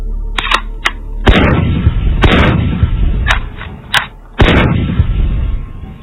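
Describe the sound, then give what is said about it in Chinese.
Gunshots ring out at a newly built shooting range during a friendly target-shooting match between two shooters. Several sharp cracks mix with heavier booming reports that decay slowly, spaced irregularly and varying in loudness. “比赛没有悬念，那两个人差不多对这个枪啊都喜欢，打得也准也用心，基本上都是枪枪实环”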